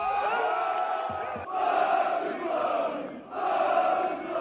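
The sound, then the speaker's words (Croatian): Thousands of football fans celebrate a victory outside a stadium, a dense, roaring crowd of chanting and shouting voices that swells and dips in loud continuous waves. “Više tisuća navijača Dinama ispred stadiona Maksimir burno je proslavilo pobjedu klubske legende Velimira Zajeca.”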